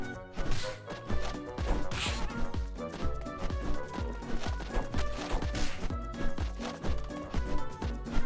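Impacts from a player character being struck by an enemy in a video game: repeated blunt thuds and whacks in an irregular rhythm, set in a dense, steady mix of game sound that fills the whole clip.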